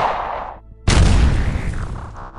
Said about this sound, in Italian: Amira aprì il fuoco con il fucile